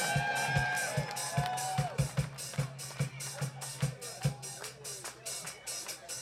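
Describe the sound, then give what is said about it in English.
Concert crowd cheering and whooping for the drummer at a live show in central Pennsylvania, loud and continuous, over a steady, evenly spaced drum beat. “Let's hear it for Sam, folks. Come on, let's make the man feel welcome. He's working his ass off back there all night. Make some noise for Sammy the Slammy.”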